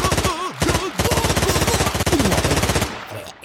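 A sci-fi blaster fires in a rapid, continuous rattling burst of about three seconds. It is loud and even, with warbling tones over it, then cuts off abruptly.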